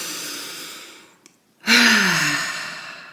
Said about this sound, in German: tief einzuatmen in den Bauchraum und mit einem Seufzen wieder auszuatmen, vollständig. Ich mache das jetzt einfach mal vor